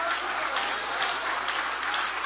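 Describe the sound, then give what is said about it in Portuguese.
Church audience applauding, a dense, steady wash of many hands clapping at an even, fairly loud level throughout the short stretch, with no voices over it. “Aplaude a Ele outra vez. Aplaude a Ele outra vez.”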